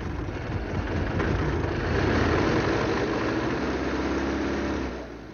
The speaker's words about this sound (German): Nur wenige Meter fährt der große Königswagen.